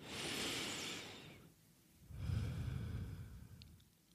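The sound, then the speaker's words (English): A slow, deep human breath taken during a guided spiritual meditation: two long, soft, airy swells of breathing separated by a brief pause, heard alone and quietly. “Take a nice deep breath with me.”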